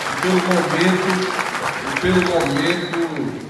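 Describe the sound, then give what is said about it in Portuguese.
Applause breaks out for Ceará's mayors at a political event: steady crowd clapping runs through the whole moment, with voices and tonal sounds carrying over it. “Eu queria aqui dizer que todos os prefeitos e prefeitas do Ceará merecem aqui, os que estão aqui presentes e os que não estão, uma salva de palmas pelo trabalho,”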